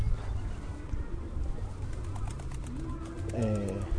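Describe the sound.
A pigeon flies past about a metre overhead outdoors, giving low, soft cooing notes near the end over a constant outdoor hum while a person talks.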